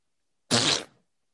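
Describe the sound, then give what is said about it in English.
A hand pressed under an armpit makes a fart noise, a single short, loud, raspy blurt lasting about half a second. Silence surrounds it on both sides. “If I could stick my hand under my armpit and make that noise that I did when I used to be a kid, I'm actually going to try it.”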